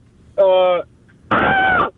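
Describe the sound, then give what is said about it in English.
A person imitates a child's scream with two strained, loud vocal bursts separated by a short pause. The second is longer and rougher than the first. “Can you scream like her? Yeah, I'll try.”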